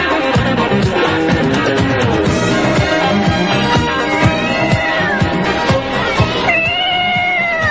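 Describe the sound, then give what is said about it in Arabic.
A wild cat meowing: a few drawn-out, wavering meows rising out of a dense, busy, rhythmic background that runs loudly throughout. “هذا هو القط البري، بعض خلق القدير العلي، يخربش ويعض وعلى الفريسة ينقض”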